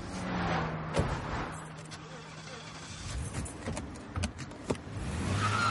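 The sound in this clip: A car at a motorway rest area, its steady road and engine rumble broken by a few sharp clicks and thumps of doors and handling, with the noise continuing as the vehicle pulls away.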